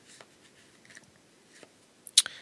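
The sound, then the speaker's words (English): A card drawn from a deck of colour cards: faint, soft rustles and light clicks, then one sharp, bright snap near the end. “So I have these cards in front of me, and I'm going to pick one.”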